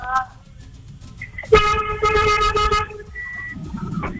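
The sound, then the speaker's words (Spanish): A car horn blares one long, loud, steady honk of over a second, with brief shorter toots before and after it and voices heard around it. “¡Toque el pito, mi amor!”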